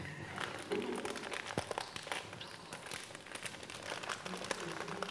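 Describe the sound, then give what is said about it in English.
Cardboard box torn open by hand, producing faint, irregular crinkling and tearing with many small crackles and rustles spread throughout. “and open this box and see what is inside. Yes, you can't give it to everyone, but you can open. Yeah, yeah, just tear it.”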